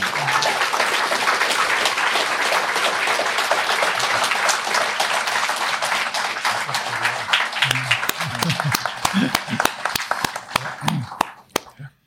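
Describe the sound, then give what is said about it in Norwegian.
Audience applause after three presenters at a philosophy student association event. Dense, crackling clapping runs loud and steady at first, then thins into scattered individual claps and fades out at the end. “jeg bare synes at publikum burde gi de den applausen de fortjener.”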